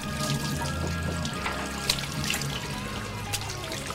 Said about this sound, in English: He puts down his glass and splashes his face.